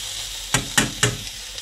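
Stir fry sizzling in a hot pan: three sharp bursts of hissing as the food is stirred, rising over a low, steady sizzle, with no voices.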